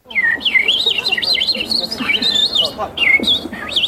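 A person imitating a European robin's song in a bird-call imitation contest, a rapid, continuous run of high, warbling whistled chirps and trills with brief pauses, heard alone without talk.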